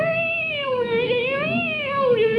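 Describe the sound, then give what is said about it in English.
A cat meows after being stepped on on a gravel driveway: one long, loud, sustained yowl whose pitch wavers, rises slightly midway and drops at the end, heard alone with no talking. “walked down the gravel driveway, and stepped on the cat.”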